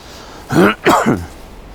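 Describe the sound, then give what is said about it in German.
A person with a lingering cough coughing twice in quick succession, two rough, fairly loud bursts separated by a brief pause, the second a little longer, with quiet background before and after. “Ja, ein bisschen Husten habe ich noch.”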